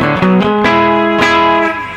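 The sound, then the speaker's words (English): Electric guitar played through a humbucker bridge pickup in split-coil mode: a few bright, clean strummed chords ring out loudly and sustain, each fresh strike cutting over the decay of the one before. “Here's the humbucker treble pickup or bridge pickup. And then split.”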